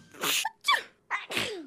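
Sneezing from a person during allergy and hay fever season: a few sharp, breathy bursts in quick succession, loud and alone with no talk.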